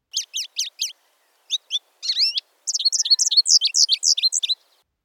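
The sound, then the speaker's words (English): American goldfinch calling in high, bright chirps: a few short, evenly spaced notes, then a brief buzzy note, then a long, rapid run of many repeated chirps that stops abruptly. “a series is slow enough to count with repetitive notes, such as the call of this American goldfinch,”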